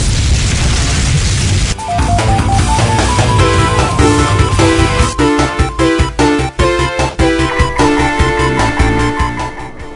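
Fire jutsu explosion sound effect: a broad roaring blast opens, then gives way to loud, rhythmic booming hits layered with tonal, music-like tones that continue to the end.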